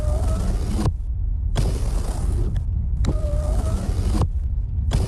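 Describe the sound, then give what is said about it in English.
A car's power windows whine as they are moved up and down, several steady motor runs broken by short pauses, each ending with a soft thunk, with no voices. “Oh, can you please just stop playing with the windows? I can't get the temperature right.”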